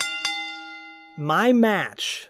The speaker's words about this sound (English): Hit that ring bell.